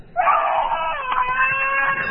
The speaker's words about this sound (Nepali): सानो नानी रुनु भएको जस्तो लाग्यो है।